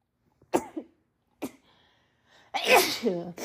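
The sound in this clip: A person sneezes. A few sharp, breathy intakes and sniffs lead into a loud, voiced sneeze burst at the end. No talk is heard.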